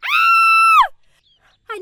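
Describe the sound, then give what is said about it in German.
A single loud, bloodcurdling scream rings out in a forest. It is held for under a second and then cuts off sharply into near silence, and a brief voice sound follows at the end. “Ein markerschütternder Schrei hallt durch den Wald.”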